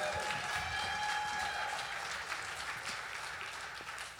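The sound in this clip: Audience applause welcoming a guest speaker to the stage, a fairly faint, steady wash of clapping that slowly tapers off toward the end.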